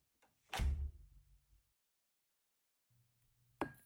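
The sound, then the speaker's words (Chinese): A door opening: a sharp burst with a low, rumbling resonance that fades over about a second, a quiet low hum, then another sharp knock at the end. “我们一起进去这扇门吧。来吧。门打开了”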